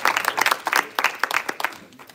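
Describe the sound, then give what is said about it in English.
Hand clapping by a church audience at a revival Sunday service, many loud, quick claps falling in uneven bursts with no talk. “Come on and give the Lord a good hand clap.”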